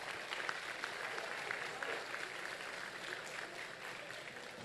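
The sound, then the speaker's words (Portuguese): Applause for refinery staff at a company presentation: dense, steady clapping from a crowd that holds at an even level for the whole stretch. “Aplausos para o pessoal do refino, gente.”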